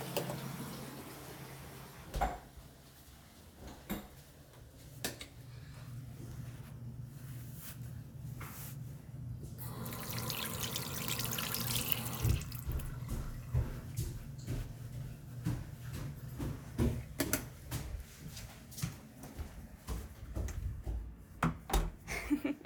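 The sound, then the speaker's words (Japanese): A tap runs at a sink while hands are washed, making a steady rush of water with scattered clicks and knocks around it. The water is strongest midway, and no one speaks. “じゃあ流します。手洗いに行きますね。”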